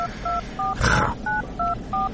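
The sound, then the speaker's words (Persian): Touch-tone telephone number being dialed: six short, evenly spaced dual-pitch beeps, with a brief noisy burst between the third and fourth, loud and clear with no talking. “بذار ما یه زنگ به مادر پامچال بزنم بگم شروع کنه دیگه”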